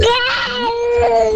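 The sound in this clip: A toddler crying in a full tantrum: a loud, sustained high-pitched wail with strong tonal harmonics that stays intense throughout with only brief wavering.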